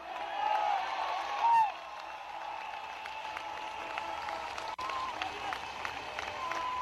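Congregation applauding in church: a steady, fairly faint wash of clapping that runs throughout, with a brief swell early on.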